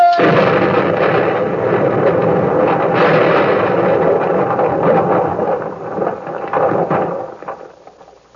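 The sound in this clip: A torpedo explosion sinking a ship: a loud, dense roar that rumbles for about eight seconds, with scattered crashes through it, before thinning and fading at the end.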